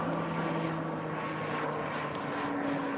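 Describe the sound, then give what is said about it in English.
A low-flying DC-10 commercial airliner gives off a steady, rumbling engine drone with a sustained humming tone running through it, with no voices. “This isn't a C-130. This is a, I think this is a DC-10, which is a big friggin' airplane.”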